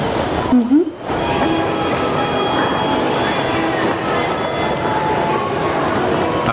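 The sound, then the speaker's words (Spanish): A continuous rail rumble fills a train station entrance with turnstiles in Tokyo. The broad, steady noise stays loud throughout, with a brief rising tonal sound near the start. “camina hacia unos tornos de entrada a una estación”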